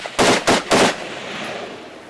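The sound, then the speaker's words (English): Three gunshots fired into the air at an outdoor music gathering: sharp, loud bangs in quick, fairly even succession, followed by a long fading tail of noise. “And then gunshots.”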